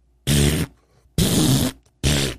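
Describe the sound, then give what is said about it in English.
A voice imitates the farting of a man in a restroom stall at an upscale steakhouse: three loud, buzzy, drawn-out blasts, each under half a second, separated by short quiet gaps. “the guy farted and crapped like no one else.”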